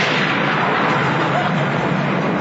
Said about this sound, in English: It's all right. It's not a bomb. It was thunder.